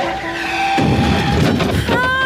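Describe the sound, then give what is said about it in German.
A yellow Mercedes skids and strikes a pedestrian crossing the street: a sustained tonal squeal gives way to a loud, rough, noisy burst, and a squealing tone returns at the end. “Riesig, wie ein Ozeandampfer, erfasst sie ein gelber Mercedes.”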